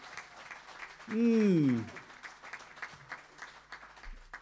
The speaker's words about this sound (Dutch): Oh, mag ik een groot applaus voor Gianna Tam, dames en heren.